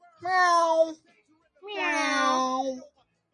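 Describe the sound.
A cat meows twice: a short call, then after a pause a longer, drawn-out meow whose pitch sags toward the end. Both are clear and fairly loud, with no other sounds between them.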